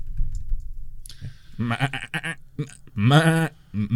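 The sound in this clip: A sheep bleats: a few short, nasal, wavering bleats, then a longer quavering one and a final brief call, loud and with no talk over them.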